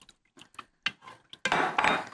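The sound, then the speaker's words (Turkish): Stirring food in a pot produces a few separate light scrapes and clinks of a utensil against the pot, followed by a longer, louder scraping stir at the end. “Şöyle bir karıştırıyorum.”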